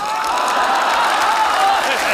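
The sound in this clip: Applause from a crowd: a dense, steady patter of many hands clapping that holds at an even, fairly loud level throughout, with no clear break.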